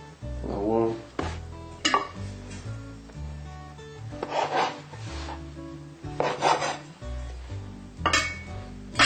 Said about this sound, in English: Now it's ready, so we cut it into a few pieces.